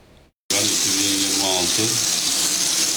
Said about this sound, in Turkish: İstanbul'un Anadolu yakasında musluklardan adeta çamur akıyor.